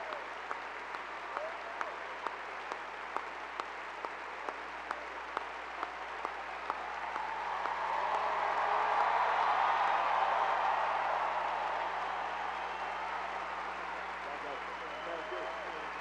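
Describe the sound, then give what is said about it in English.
Audience applause welcoming Senator Barack Obama: scattered single claps at first, then the crowd swells into full, sustained clapping midway and slowly tapers off toward the end. “Please put your hands together and welcome this Christian gentleman, a member of Trinity United Church of Christ, Chicago, Senator Barack Obama.”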